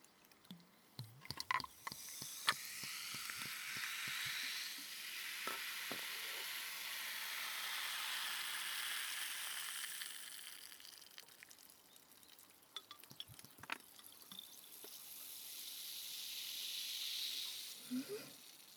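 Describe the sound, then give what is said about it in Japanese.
Ramune soda poured into a glass: a few sharp clinks and taps at the start give way to a long, soft fizzing hiss that swells and fades, broken by scattered small clicks. “ラムネのいい香り、これをコップに注いで、”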